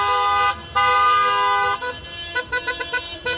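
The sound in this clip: Car horns honk in a union warning-strike motorcade, first as long sustained blasts, then as a quick run of many short rhythmic toots.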